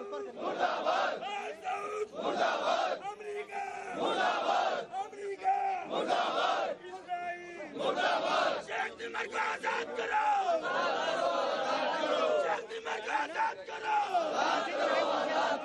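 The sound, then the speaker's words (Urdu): A protest crowd chants slogans against America, Israel and Al Saud: loud, rhythmic shouted phrases in unison, rising and breaking off in short bursts with brief pauses between lines. “اس موقع پر امریکہ، اسرائیل اور آل سعود مخالف نعرے بھی بلند کیے گئے۔”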